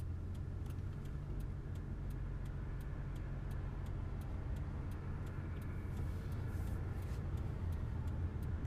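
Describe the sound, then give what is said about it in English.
Cars driving fast along a road, producing a dense, steady rumble of traffic and tire noise with no clear gaps, continuous and fairly loud throughout. “These motherfuckers are driving fast as fuck.”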